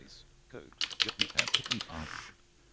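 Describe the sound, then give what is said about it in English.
Quick keystrokes on a computer keyboard typing into a Windows search box come as a brisk burst of many crisp clicks, then taper off into quiet. “So I press my Windows key. Search window. So I'm going to type in Code Jumper. C-O-D-E.”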